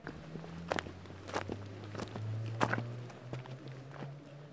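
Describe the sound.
Footsteps of hikers climbing a steep path on a midnight hike: a series of crunching steps at an uneven pace over a low steady drone, with nobody talking.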